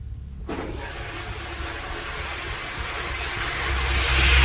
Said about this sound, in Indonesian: aku mendengar lagi suara keran yang menyala.